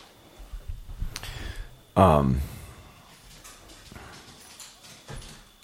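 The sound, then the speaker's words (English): Small dogs' feet scampering around a room: faint, irregular tapping and clicking of paws, with one brief louder burst partway through. “the dogs have been home alone all day and you're gonna hear their little feet. Yeah. They're kind of going crazy a little bit.”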